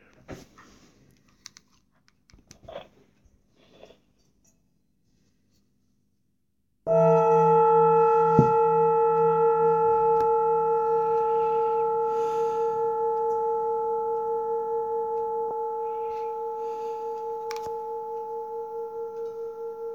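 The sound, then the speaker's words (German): A singing bowl struck once partway through rings out with a steady, pure tone and bright overtones, sustaining and slowly fading; faint scattered clicks precede the strike. “Und mit dem Ton der Klangschale kannst du jetzt wieder eintreten in die Stille.”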